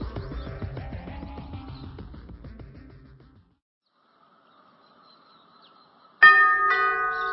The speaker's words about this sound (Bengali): ওমা, আপনাদের বাড়ি কলিং বেল না নষ্ট বললেন, এই তো বাজলো।